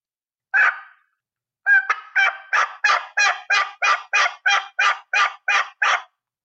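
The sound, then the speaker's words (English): Raspy two-note turkey yelps from a box call: a single yelp, a short pause, then a long, steady run of many evenly spaced, loud, coarse yelps, each breaking from a higher note into a lower one. “But having that two note, you'll hear it on a box call. And that gives the realism to the sound because it's not all rasp all the time.”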